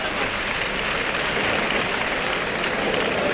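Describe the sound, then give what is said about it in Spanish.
A bullfight crowd gives the matador Roca Rey a sustained ovation, dense and steady applause that fills the whole moment without pause or single voices rising above it. “El público que ovaciona a Roca Rey.”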